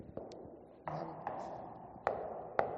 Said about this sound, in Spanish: tú lo tocas y dices, vamos a ver uno que esté lleno, a ver cómo suena. El del fondo está lleno, vamos allá, a ver si se nota la diferencia simplemente tocando.